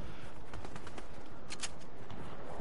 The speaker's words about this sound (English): Are you shooting? Or are you just watching? No, I'm getting shot at.